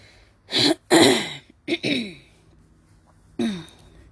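A person with a dry throat clears it in a series of rough, harsh bursts, loud and separated by short gaps, with a final burst after a longer pause.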